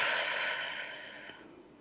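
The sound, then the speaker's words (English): A single long breath out through the mouth, pushed as if through a straw during a calming breathing practice, starts moderately strong and fades away steadily on its own. “Take a breath. Be open to receive as you breathe in through your nose, out through your mouth like through a straw.”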